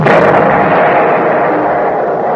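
An artillery gun fires with a loud, sharp blast at the very start, followed by a heavy rolling rumble that holds strong and fades only slightly.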